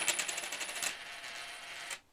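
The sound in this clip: A coin landing on an I Ching card: a rapid, bright metallic rattle, then a steady hiss that cuts off abruptly.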